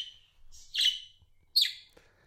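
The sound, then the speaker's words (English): A pet budgie chirping: a few short, bright, high-pitched chirps, with two sharper bursts standing out, fairly quiet against a near-silent background. “That's a budgie. Have you thought about maybe a bird, a budgie?”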